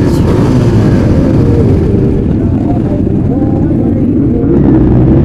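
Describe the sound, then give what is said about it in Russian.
Steady, loud low engine rumble of a Harley-Davidson motorcycle being ridden during a large group motorcycle run, continuing without a break throughout. “И вот верхом на Харли, шлем на голове, главная безопасность.”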